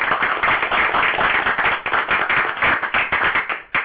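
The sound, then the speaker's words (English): A person clapping hands in a quick, steady run of many sharp claps, loud and unbroken, with no talk over it. “Yeah, so what I'm going to do right now, I'm going to do the clapping.”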